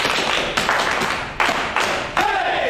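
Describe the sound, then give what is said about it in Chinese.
Clapping from a small group in a drama scene, given in honour of a team leader: a few short bursts of claps, each starting sharply and fading, spread across the moment. “哎，给张彪组长鼓掌！”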